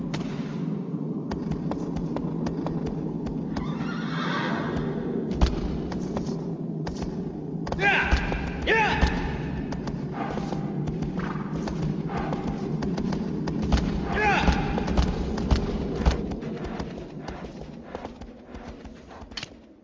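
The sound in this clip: Horse hoofbeats in a video game: a long run of irregular clopping thuds over a steady, low, droning background, with no neigh standing out.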